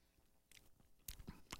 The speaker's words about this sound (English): I'm going to try another bite. Let's do two bite.